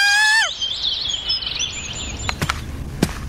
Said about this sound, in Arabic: ايه العصفوره دي؟ اوعى ايه ده؟ العصافير بقى هنا مختلسه ولا ايه؟ اوعي كده، ايه العصفوره الرخمه دي؟